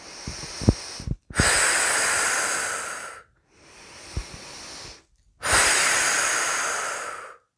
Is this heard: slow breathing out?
yes